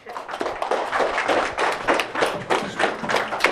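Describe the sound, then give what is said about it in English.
Crowd clapping hands at a New Year celebration, a steady, continuous patter of many palms with slight surges in loudness throughout. “So be responsible for your good education. Clap your hands.”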